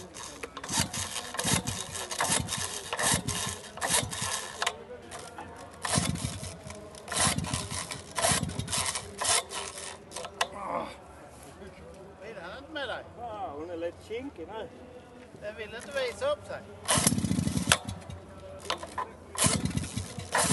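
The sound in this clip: An old Dolmar chainsaw is pull-started again and again without catching, giving many rasping pull bursts in an uneven rhythm, with one heavier, lower sputter near the end.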